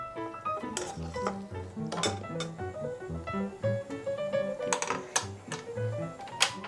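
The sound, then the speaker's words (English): Metal tongs clink and scrape against a pan as cooked spaghetti for carbonara is lifted in, making many sharp, uneven taps and rattles at a moderate level, with no talk. “Now the pasta is ready. Using tongs, place it into the pan.”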